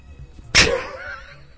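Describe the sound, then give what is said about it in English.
A single sharp rim shot drum sting cracks out alone, a loud crisp hit followed by a short ringing decay that fades away. “You get a rim shot, Handy.”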